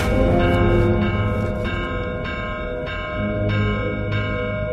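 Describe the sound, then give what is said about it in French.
A village church bell rings the alarm at midnight, struck in rapid, evenly spaced strokes that overlap one another, building a loud, sustained metallic ringing with no voices. “Vers minuit, l'abbé prévient le maire et lui demande l'autorisation de sonner le tocsin.”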